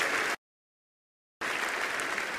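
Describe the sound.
An audience applauds to welcome speakers onto a stage. Steady, dense clapping cuts off into a second of silence, then resumes just as full and even.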